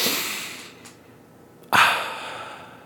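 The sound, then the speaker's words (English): A deep breath comes as two airy, breathy rushes: the first fades slowly and the second starts abruptly and trails off, both fairly soft with no talking. “I invite you to take a deep breath with me.”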